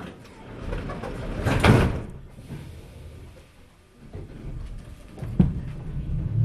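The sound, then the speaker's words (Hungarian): Train doors close with a rushing hiss that swells and fades, followed a few seconds later by a sharp thud against a low, rumbling background. “vigyázzanak, az ajtók záródnak.”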